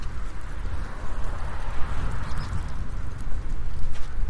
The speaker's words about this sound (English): Now we're really walking into the wind.